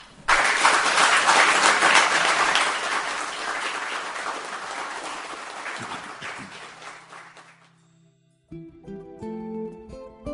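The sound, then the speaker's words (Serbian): Audience applause at a live poetry evening at the Kolarac Endowment in Belgrade: dense, sustained clapping that starts loudly, gradually thins and fades out, followed by a few tonal musical notes. “Evo, za kraj radijskog prenosa, molim vas za jedan aplauz.”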